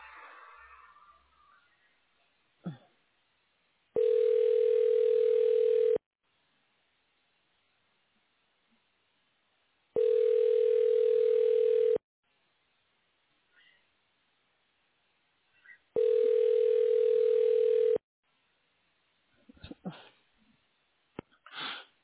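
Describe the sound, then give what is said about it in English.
Three telephone ringing tones play on the line while a call to a medical imaging office is transferred. Each is a steady buzzing tone about two seconds long, evenly spaced with near silence and a few faint clicks between them. “Again. Wait while I transfer your call.”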